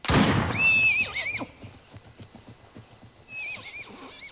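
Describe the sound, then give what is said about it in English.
A colt neighs loudly in high, shrill whinnies, then gallops off with a run of quick hoofbeats, and a second, shorter whinny rings out near the end. “The colt bolts, galloping over the brow of a hill.”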